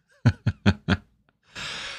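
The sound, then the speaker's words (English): A deep breath drawn as a steady, airy rush of about half a second. It follows four short, sharp breathy bursts spaced evenly apart, with no talk over them. “Deep breath. Deep breath.”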